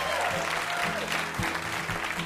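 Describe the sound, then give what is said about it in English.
Audience applause at a live quiz show: dense, steady clapping from a crowd, loud and continuous throughout with no clear breaks. “Huge round of applause for our VIP, Andrew W.K.”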